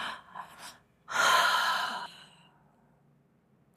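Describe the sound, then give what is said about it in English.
A recovery breath demonstrated: two quick, soft inhales in a row, then one long, loud sighing exhale that slowly trails off into near silence. “I'll suggest utilizing a recovery breath. This is a breath pattern that allows for 2 inhales per exhale. And it sounds like this.”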